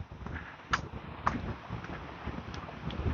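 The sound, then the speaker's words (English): Wind blows through trees among houses and fences, a faint, steady rushing with a couple of brief, slightly louder gusty swells. “The wind is blowing. You can hear it through the trees.”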